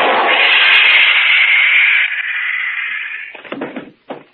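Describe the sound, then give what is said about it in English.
A stun gun blast sound effect in a radio drama: a loud, sustained electric buzz that weakens and fades, followed by a few quick clattering knocks. “That stun gun blast ought to keep him on ice for a couple of hours.”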